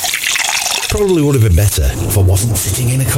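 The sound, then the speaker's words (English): A drink is poured at a barbecue: a brief splash of liquid at the opening, then a voice talks over the rest. “I think it's time for a nice drink”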